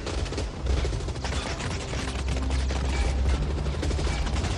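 Rapid gunfire in an action film shootout: a loud, dense, continuous barrage of overlapping shots with machine-gun bursts, sustained without a break.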